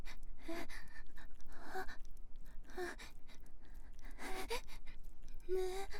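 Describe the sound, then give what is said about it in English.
Heavy panting breaths in a steady rhythm of quick, breathy huffs with occasional voiced gasps, fairly quiet throughout. “I love hearing you pant like that.”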